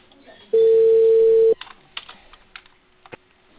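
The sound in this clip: A telephone tone sounds on a call from the company Cable Perú: one steady, mid-pitched beep lasting about a second, followed by a few faint, scattered clicks.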